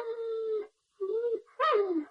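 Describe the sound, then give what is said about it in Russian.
A dog whines plaintively in an iron kennel in a garden at night. Three drawn-out, tonal whimpers are separated by short pauses, and the last one slides downward in pitch. “а в саду жалобно скулила собака в железной конуре.”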